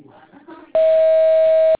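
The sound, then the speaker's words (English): A voicemail recording tone sounds as one loud, steady beep at a single fixed pitch, lasting about a second and ending abruptly. Faint talk comes just before it. “Please speak clearly after the tone.”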